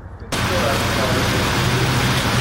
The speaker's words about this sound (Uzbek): Poytaxt yo'llarida ham yirik tirbandliklar yuzaga keldi.